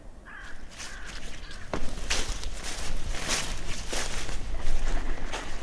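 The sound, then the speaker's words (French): A crow caws over a former First World War mine-warfare zone as night falls. A few harsh, rasping caws stand out over a steady hiss of outdoor background noise. “Une corneille, je crois. Oui. Corneille.”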